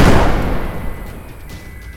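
Weapons firing at an unidentified flying object: a loud, heavy blast at the very start that rumbles and slowly fades over about two seconds.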